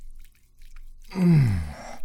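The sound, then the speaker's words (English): Soft, wet squishing sounds of masturbation, quiet at first and then louder toward the end. “just sharing the sounds of my wet, hard throbbing cock with you.”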